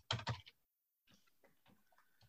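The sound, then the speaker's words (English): Keystrokes on a computer keyboard: two sharper clacks at the start, then a brief pause and a run of soft, quick key taps, faint overall. “So I'll type that in here.”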